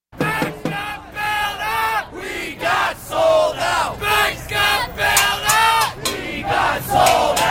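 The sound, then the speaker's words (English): Protesters of the Occupy Wall Street movement chant in New York's financial district in fall 2011. Many voices repeat a loud, rhythmic chant in steady, evenly spaced bursts throughout. “Fall of 2011, thousands camped out in New York's financial district, Occupy Wall Street. Here's some of that sound.”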